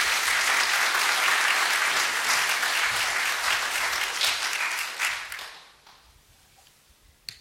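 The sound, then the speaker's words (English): An audience applauds to welcome a speaker to a presentation on Zionism. The dense clapping holds steady and loud, then fades away to scattered last claps and near quiet. “So will you put your hands together and join?”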